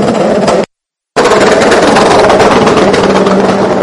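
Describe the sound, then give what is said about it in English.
Pneumatic air guns changing tires during a motor-racing pit stop make loud, dense, rapid rattling bursts like a machine gun, with a brief drop to silence between runs. “doing the tires. You can hear the air guns in the background.”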